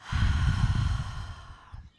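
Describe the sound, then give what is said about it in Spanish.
A deep, breathy exhale through the mouth during a yoga nidra relaxation practice: one long, steady sigh that tapers off toward the end, with no talk over it. “Y voy a inhalar profundo. Exhalo todo por boca esta vez.”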